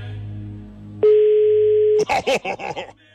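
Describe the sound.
A telephone dial tone: one steady, loud electronic tone holding for about a second. A low hum comes before it, and a person talks right after.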